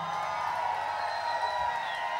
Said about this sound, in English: see if you can join us here and be part of the live audience. Can you please say hello to the Bay Area for the Fogheads listening to K-Fog tonight?